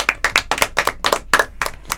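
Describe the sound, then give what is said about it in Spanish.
Hands clapping in applause: many quick, crisp claps in an uneven rhythm, fairly loud and without voices. “Bien, vamos a dar un aplauso.”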